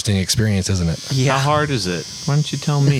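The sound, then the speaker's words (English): A tattoo machine buzzes steadily against skin during a live tattoo session. The electric hum runs quietly under people talking throughout. “So yeah, we're out here and getting tattooed live as we're recording. And that's the sound you're hearing in the background.”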